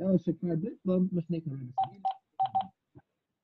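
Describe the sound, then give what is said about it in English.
Telephone keypad tones while dialing into a call, a quick series of short, faint beeps of varying pitch that thin out into a few separate presses toward the end. “I'm trying to dial in because I can't hear.”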